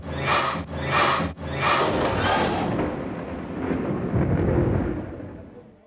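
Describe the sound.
Thunder cracks in a storm gathering over Jerusalem as sudden wind drives dust along the road: several loud, sharp bursts come in quick succession, then give way to a long, heavy, low rumble that slowly fades.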